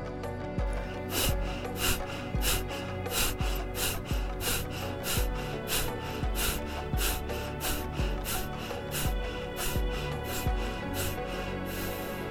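Deep, rhythmic breathing in an energising breathwork exercise: many short, sharp breaths repeating at a steady quick pace, each a soft breathy puff, with no talking.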